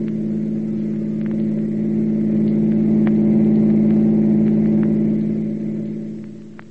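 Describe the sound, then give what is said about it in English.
A car engine accelerates away as the driver steps on the gas. Its steady mid-pitched drone swells gradually, holds for several seconds, then fades toward the end. “And then he stepped on the gas and headed for the Rushville Center House.”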